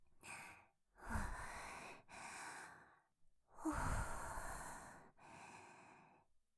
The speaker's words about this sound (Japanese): だから深呼吸でしょ。初めてのことはやっぱり緊張するので。